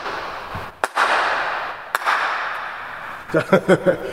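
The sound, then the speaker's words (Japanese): Sharp cracking bangs ring through a half-size gymnasium recreation room with space for two badminton courts. Two separated loud cracks each trail off in a long reverberant tail, followed by a quick burst of several shorter cracks. “要はこれぐらい響くってことですかね。 そうですね、体育館ですね。”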